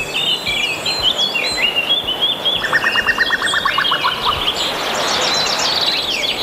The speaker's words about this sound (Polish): Posłuchajmy teraz dźwięku kukułki nagranej i opublikowanej na stronie Xenocanto przez użytkownika o nazwie Latal.